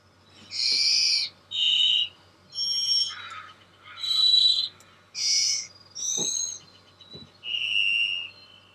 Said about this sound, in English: The mystery sound is the varied thrush.